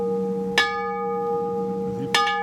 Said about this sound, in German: Und obendrauf ist dann die Glocke, die angeschlagen wird. Ja. Die ist aus Metall und... Gusseiserne.